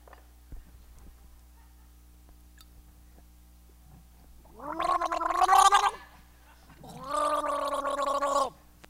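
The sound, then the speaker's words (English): Forceful gargling demonstrated by a person, two bubbling, rattling bursts of a few seconds each, separated by a short pause after a quiet start. “It's like really forceful gargling. I'll see if I can demonstrate it.”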